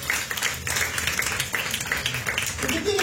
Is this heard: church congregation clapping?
yes